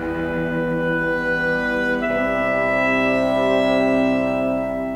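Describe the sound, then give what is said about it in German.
Bassoons and clarinets blend in a soft, low, sustained woodwind chord in an orchestral passage, holding steady before the harmony shifts midway and settles again. “Da vermischen sich Fagotte und Klarinetten. Das klingt so.”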